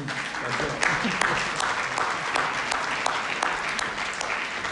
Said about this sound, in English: that's why you gave me a clap